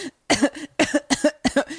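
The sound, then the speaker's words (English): A person coughs on purpose, forcing out several short, harsh bursts in three quick clusters. The coughs are fairly loud, with brief pauses between the groups. “The first time I've ever purposely coughed.”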